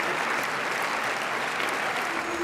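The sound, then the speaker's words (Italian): A crowd of over 2,000 applauds at the end of a film screening in a large festival theater at Cannes: a thick, continuous roar of clapping, steady and full with no gaps or voices breaking through. “Gli applausi alla fine della proiezione sono un'esperienza unica.”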